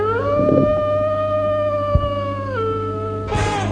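A single long wolf howl, a sustained, slightly wavering tone that holds level and then steps down lower near the end, followed by a brief noisy burst at the close.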